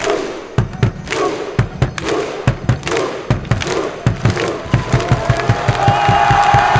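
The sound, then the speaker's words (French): Crowd clapping and cheering in celebration of a Coupe de France trophy win at Paris-Bercy. Loud, scattered claps and thuds settle into steady rhythmic clapping in unison toward the end. “Félicitations et le clapping.”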